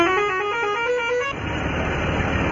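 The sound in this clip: A vehicle horn blares on a road where buses run full of passengers, one sustained, steady tone for a little over a second, then cutting to a dense rush of engine and traffic noise.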